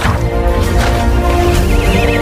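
A loud pony whinny, from an escaped pony, rings out across the whole stretch with a wavering, quivering pitch near the end, over soft hoof clops beneath.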